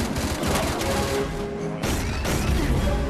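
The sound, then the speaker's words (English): Gunshots from a weapon fired in a film scene come as a dense, continuous burst of overlapping reports. The burst stays at a steady moderate loudness with no talk. “Jewel really does not like firing a weapon. That was the first time she fired it.”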